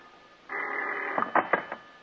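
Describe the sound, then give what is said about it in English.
A telephone bell rings in the dark at two in the morning: one sustained, loud ring under a second long, then a few short clipped bursts, with no talk. “It seems like hours later when the phone bell cuts through the darkness like a knife.”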